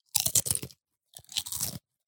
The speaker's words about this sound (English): Are you ready to get buffalo winged? This is double crunch? Double crunch. All right, well, we got a double crunch here.